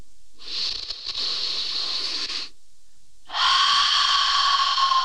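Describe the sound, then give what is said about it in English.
Two long, airy breaths, each lasting about two seconds with a short pause between them, heard alone in quiet. “Take a deep breath in.”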